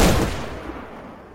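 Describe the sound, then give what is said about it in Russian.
A single rifle shot rings out in the taiga: a sharp, loud blast at the start that decays into a long rolling echo tail. “Мой выстрел разносится эхом по тайге.”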